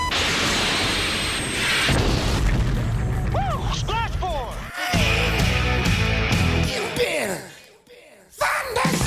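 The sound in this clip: A film-style effect of a missile fired from an aircraft: a loud, dense rushing roar with booming bursts and whooshing sweeps, mixed with brief voices. It drops out abruptly near the end, then returns.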